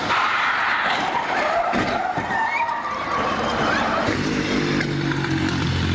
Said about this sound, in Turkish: Ambulans Yavuz Selim Caddesi'nde ilerlerken Fevzi Paşa Caddesi kesişimindeki bir otobüsle çarpıştı. Devrilip sürüklenmeye başladı.